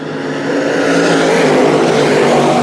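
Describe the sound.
Fast Track Crate Late Model race cars roar through turn four toward the finish in a close drag race, a loud, steady, sustained engine roar that swells slightly after the first half second.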